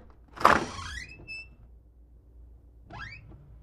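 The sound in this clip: A small wooden door in a fairy-tale cottage is opened just a crack: a soft bump, then a squeaky, rising creak of the hinge, and a second shorter creak a few seconds later.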